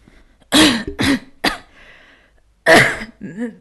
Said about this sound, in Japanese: Good health を思いっきり体調が悪い状況をイメージして咳込みながら